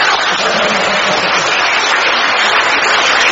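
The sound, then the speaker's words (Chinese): Loud, steady applause from a small audience at a live stage talk, a dense, continuous clatter of clapping with no break for the whole stretch. “你们虽然啊人这么少，但是鼓出来的掌声啊就像啊一千人一样，在鼓掌”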